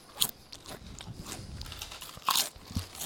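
Tomato and herb flavoured potato chips crunched and chewed near the microphone: several loud, sharp bites with crackly chewing between them.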